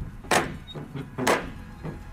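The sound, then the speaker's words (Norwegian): A few knocks of an old metal ring knocker on a heavy wooden door. Two blows are firmer dull thuds and the weaker ones fall between them, all faint and spaced about a second apart. “Oi, oh, sånn gammel dørklinke. Sånn skikkelig sånn gammel ring, sånn I metall som ja. Du kan slå med.”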